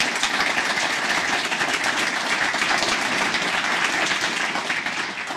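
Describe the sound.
An audience gives loud, dense applause to welcome debate candidates. The clapping stays steady throughout and eases slightly at the very end.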